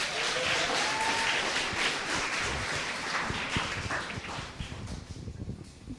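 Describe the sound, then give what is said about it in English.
Applause from a church audience welcomes a speaker. Dense, even clapping stays loud and then thins and fades toward the end. “Next, I want to welcome up Mercedita Cantillas. Let's give her a hand.”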